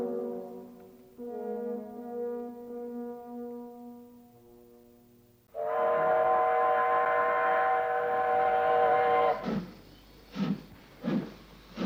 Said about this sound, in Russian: Валицкий стоял на платформе, провожая взглядом уходивший поезд с завешенными изнутри окнами